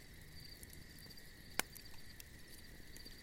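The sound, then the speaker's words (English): Crickets chirping at night give a continuous, faint, high-pitched trill that holds steady throughout, broken once midway by a single sharp crack. “And begin to listen to the sound of the campfire and the crickets in the background.”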